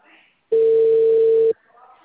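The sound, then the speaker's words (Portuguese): Ringback tone of an outgoing telephone call while it is being placed: a single steady, mid-pitched electronic tone holds for about a second, then stops. “Mais uma vez, vou ligar.”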